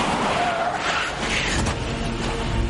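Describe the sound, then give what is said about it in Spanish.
Steady, loud rushing road and tyre noise from a patrol car braking hard on a road near a forest fire in a 2021 thriller film, filling the whole moment without a break. “En el coche patrulla, Ethan está al teléfono. Ali, no hay ni rastro de Connor. Lo están buscando. Sí, van a montar un equipo de búsqueda, pero. Levanta la mirada. Frena en seco.”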